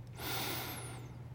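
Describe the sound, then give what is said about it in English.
A deep inhale through the nose during a guided breathing exercise: one long, airy breath lasting over a second, fairly loud and alone, over a steady low hum. “Take a deep inhale through your nose.”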